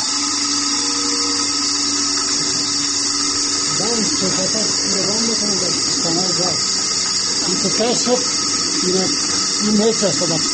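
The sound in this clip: A milking machine milks a cow, giving a steady, loud mechanical whine layered with humming tones and hiss. Voices talk over it in the second half.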